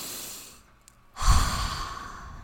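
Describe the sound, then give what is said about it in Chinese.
A single deep breath is taken alone: a quiet intake, then a long, louder breathy exhale like a heavy sigh. “通常远离现场第一个步骤就是你要先让自己深呼吸，”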